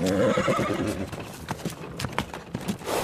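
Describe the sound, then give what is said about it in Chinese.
A thin, weak horse pulling a heavily loaded cart neighs loudly at the start, followed by a few sharp hoof clops at a slow pace. “伯乐看到一匹非常瘦弱的马在拉车子，车里的货物很沉很沉，马儿也走得很慢很慢。”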